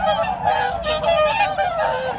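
A swan honks repeatedly, loud nasal calls overlapping in a continuous stream throughout.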